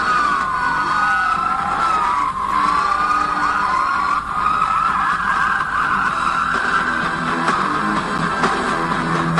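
Wailing sirens within a wrestling show's theme music: a loud tone that rises and falls repeatedly over a dense, steady musical backing throughout.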